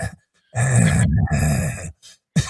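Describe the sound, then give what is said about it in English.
A man's voice imitates an old man grunting and groaning: a long, low, strained groan with a brief break in the middle, then a short grunt and the start of another. The sound is loud and voiced. “He's just always moaning and groaning and grunting like an old man.”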